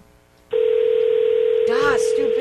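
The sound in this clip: Telephone ring tone on an outgoing call: after a short quiet start, one steady low tone begins and holds to the end while a voice speaks briefly over it.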